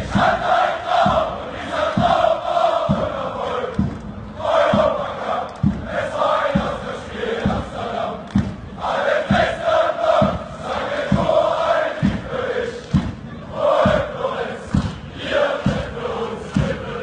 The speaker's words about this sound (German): wollen wir einmal ganz kurz hören, um welchen Song es sich handelt, okay, und wie sich das anhört, wenn die Kurve bei Dynamo Dresden das singt.